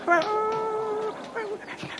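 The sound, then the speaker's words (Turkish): A dog whimpers in a long, high, quavering whine, then gives a second, shorter whine, with a few faint sounds between. “Bu köpek bana doğru geliyor. Dur şuradan bir taş alayım. Hoşt. Hoşt. Git hadi git. Çekil yolumdan.”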